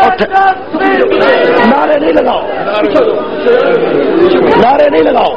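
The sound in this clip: A crowd chants slogans at a religious rally, many voices shouting together loudly and continuously for the whole stretch.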